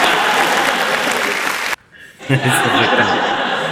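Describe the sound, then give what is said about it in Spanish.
Recorded audience applause fills the first seconds as a loud, dense wash of clapping. It breaks off abruptly, and after a short near-silence, quieter chuckling and mixed crowd sounds follow. “Ya tenemos hasta aplausos de la audiencia.”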